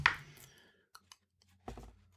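Pages of a comic book are flipped back through, giving a few faint papery rustles and small clicks, the first and last bursts the fullest, with quiet gaps between and no talk.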